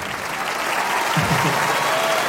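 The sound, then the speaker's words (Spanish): At a bolero concert, an audience gives loud, sustained applause for the band director, a steady roar of many hands clapping that builds slightly and holds its level throughout. “Quiero pedir un aplauso muy grande para nuestro director, Quique Purizaga.”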